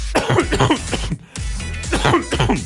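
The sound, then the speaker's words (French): Harsh coughing into a microphone comes as several loud, raspy bursts with throat-clearing, broken by a short silence near the middle. “Pardonnez-moi, cinquième semaine de toussement dans le micro.”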